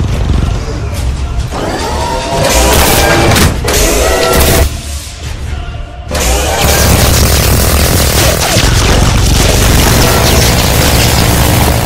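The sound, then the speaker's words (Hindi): Artillery guns firing shells at targets, heard as a dense, loud, continuous roar of booms and blasts. The barrage eases briefly near the middle, then returns at full strength. “अभी तक 1200 गोले fire हुए हैं, 2 मजीद targets की तबाही confirm है।”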